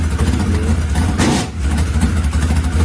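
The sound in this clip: A loud open-wheel modified race car engine with a big four-barrel carburetor runs steadily, a deep rumbling idle with a short burst of harsher, brighter noise about midway.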